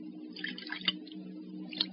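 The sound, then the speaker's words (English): A drink poured into glasses, faint brief gurgles and drips over a steady low hum. “I'll get the glasses. Here we are. The ones your father used, brought from France. Yes, thank you. Now, you may pour.”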